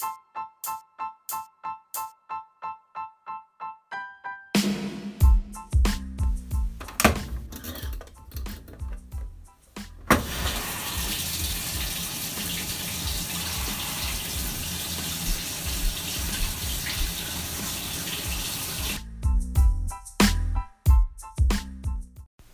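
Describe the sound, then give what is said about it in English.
Running water as clothes are washed: a quick series of even electronic beeps gives way to clattering, then a loud, steady gush of water lasting several seconds, followed by more rattles and knocks. “now I need to do even more fun stuff, which is like wash my clothes. And that is so fun, so let's go ahead and do that.”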